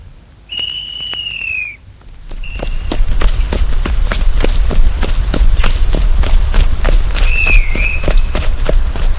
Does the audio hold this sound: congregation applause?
no

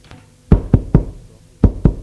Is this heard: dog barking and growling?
no

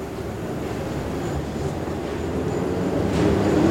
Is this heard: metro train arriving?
yes

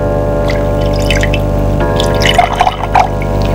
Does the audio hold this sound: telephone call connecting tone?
no

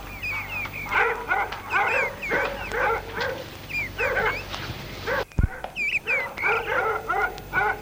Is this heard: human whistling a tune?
no

